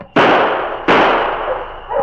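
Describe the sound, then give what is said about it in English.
Two warning gunshots fired outdoors among rocks, two sharp, loud cracks about three quarters of a second apart, each followed by a long fading tail. “All right, let's go. I'll fire warning shots.”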